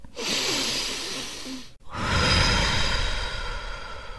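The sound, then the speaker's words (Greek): A deep breath is drawn in through the nose, then let out through the mouth after a brief pause. Both breaths are long and airy, with nothing else heard. “εισπνέουμε από τη μύτη που σκώνει η κυλίτσα μας και εκπνέουμε από το στόμα. Εισπνέουμε ξανά, δυνατά, βαθιά.”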